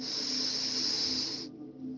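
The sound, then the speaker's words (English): A deep breath drawn in during a guided breathing exercise: a steady, airy hiss lasting about a second and a half that then stops abruptly, leaving near silence. “So together we are going to go breathe in,”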